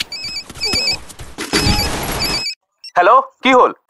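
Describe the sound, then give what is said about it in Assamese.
A telephone ringing with a steady, high electronic tone that repeats over clattering noise, then stops and gives way to a voice speaking. “এইজনী আৰু phone কৰি আছে”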